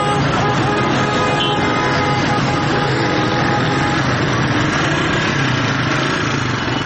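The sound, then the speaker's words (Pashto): Loud, continuous engine rumble of a convoy of about fifty military vehicles, including garrison tanks and Ranger trucks, rolling through city traffic in Helmand, a dense, unbroken drone throughout. “په ښار کې د خلکو او ډول ډول موټرونو او وسایطو په منځ کې د پنځوس په شاوخوا کې دغه پوځي موټرونو نن ډیر خلک نندارې ته راوویستل او دا کاروان یې په حیرانتیا د خپله مخه تیر کړ.”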